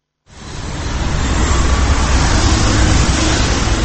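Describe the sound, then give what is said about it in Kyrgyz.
Street traffic in Ankara, Turkey: a dense, steady roar of passing vehicles that swells in quickly from near silence and then holds at a constant, loud level. “Бул жерде автоунаалар менен элдин агымы түндүн бир окумуна чейин токтобойт.”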